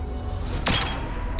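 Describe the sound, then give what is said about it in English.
Warp grenades explode in a video game firefight: two sharp, booming blasts spaced under a second apart, loud over a steady background rumble. “He's throwing a bunch of warp grenades.”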